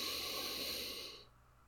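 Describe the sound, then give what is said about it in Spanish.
A deep inhalation during a guided breathing exercise: a soft, steady, airy hiss of breath drawn in that fades away after a little over a second. “retenemos normalmente en 4 y soltamos poco a poco por la boca. Empezamos. Inhalando profundamente.”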